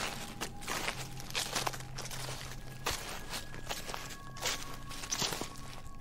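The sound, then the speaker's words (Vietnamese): Slow footsteps crunch and rustle on dry leaves in a faint, unhurried series of soft crackling steps. A quiet background hiss runs throughout. “mỗi một bước đi chân dẫm lên lá khô cứ sột soạt”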